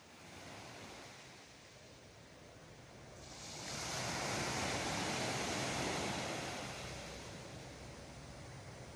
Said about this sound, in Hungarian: Ez a tenger hangja. Barcelonában, ha valaki nem ismerte volna fel.